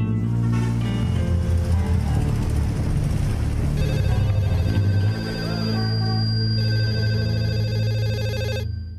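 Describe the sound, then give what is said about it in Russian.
Telephone ringing, a trilling electronic ring heard as sustained tones over a low, steady hum that runs the whole length, ending abruptly near the close. “В 9:15 утра телефонная трель вырвала Антона Самарина из сна.”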